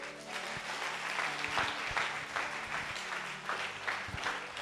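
Applause from a church audience during a French-language sermon: a dense, continuous patter of many hands, fairly faint and steady throughout, with no voice over it.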